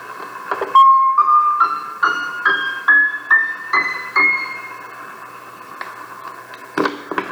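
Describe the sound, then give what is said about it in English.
A synthesized scale with eight notes per octave spaced on a linear frequency scale: a series of short tones climbs in pitch, each with a sharp onset that fades quickly. The later steps sound closer together, and the notes are heard alone. “Whereas 8 notes per octave on the linear scale sounds like this.”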